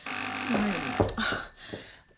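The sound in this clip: A telephone rings with a bright, high-pitched bell tone that sustains across the whole moment, fairly loud and alone.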